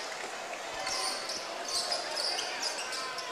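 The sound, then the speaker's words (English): A basketball dribbled on a court during a game: a few dull, low thumps under steady crowd noise. “Dribble to the free throw line.”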